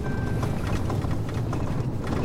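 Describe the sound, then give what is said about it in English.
A truck rattles along a washboard-rough road, giving a steady low rumble with constant vibration and no talk. “We move our discussion into Carol's truck and start the driving tour.”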